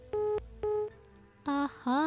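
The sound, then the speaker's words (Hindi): Beeping tones on a phone line during a call: four loud beeps, the first two steady and identical, the last two lower and wavering in pitch. “के हो आवाज त एकदमै सुनाइदिँदै हुनुहुन्छ नि टुट टुट गरेर। ओके मलाई त्यस्तो आवाज मन पर्दैन”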